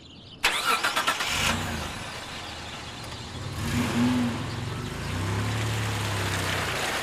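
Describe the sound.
A car engine runs in a car parked outside a television centre; it starts with a sudden burst, swells briefly partway through, then settles into a steady, loud, low hum.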